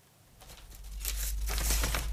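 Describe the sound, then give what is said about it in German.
Brittle sheet music paper, nearly three centuries old, crackles and crinkles softly as a paper restorer handles it in a Berlin workshop. The rustling is continuous and quiet and grows somewhat louder partway through, with no voices. “Es knistert leise, altes Notenpapier, mehrere hundert Jahre alt.”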